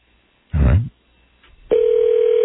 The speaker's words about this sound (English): The brunette hotline has gone off. I'm calling the brunette hotline right now.